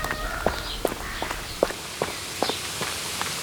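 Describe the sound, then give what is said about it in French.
Footsteps of a man running around a pond, a steady run of crisp, evenly spaced footfalls with light background noise and no talking. “Qui aimerait être cet homme qui court autour de l'étang?”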